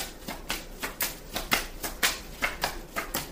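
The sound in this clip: Tarot cards being shuffled and drawn make a steady run of soft, papery riffles and slaps, many quick bursts at a fairly even rhythm, quiet throughout with no voices.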